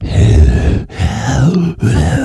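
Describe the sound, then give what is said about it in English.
Heavy breathing directly into a microphone: three loud, rough, breathy exhalations, each separated by a brief silence, with a grunting, groaning edge. “breathing into one's mic, not smart”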